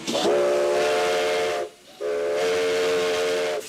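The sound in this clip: Two long, loud blasts of a steam locomotive's whistle, a steady harmonic tone with a brief gap between them; the engine is capable of over 60 km/h but is running at a modest 24 km/h on this line.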